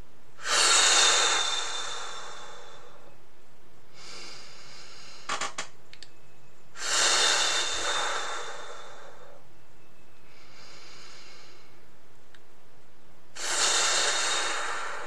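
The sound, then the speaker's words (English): Slow deep breathing, in through the nose and out through the mouth: three unhurried cycles of airy, rushing breaths separated by quiet pauses, with no talking. “take a few moments and take some deep breaths in through our nose and out through our mouth or out through our nose, maybe sighing it out.”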